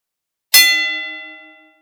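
A match gong struck once before a bout, giving a bright metallic clang that rings on as a sustained, slowly fading tone for about a second, with no other sounds.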